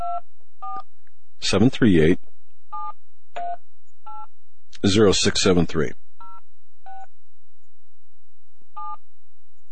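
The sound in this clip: Telephone keypad tones dial a phone number as a series of short, clean beeps, one digit at a time, at an uneven pace. Two brief bursts of a voice speaking break in between the beeps.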